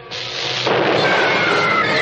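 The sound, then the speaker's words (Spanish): Fireworks rockets fired and bursting over rooftops: a loud, continuous rushing roar of blasts that swells after the start and holds steady, with a faint whistling tone running through it and no talk. “Los cohetes iluminan los tejados con múltiples colores.”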